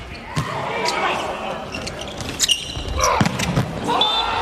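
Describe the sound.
A ball thuds a few times before a serve in a volleyball match. The hollow bounces come over steady crowd noise while a commentator keeps talking.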